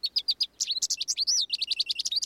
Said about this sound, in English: The songs of two common finches provide a steady soundtrack in cities across North America. There's the house finch and the American goldfinch.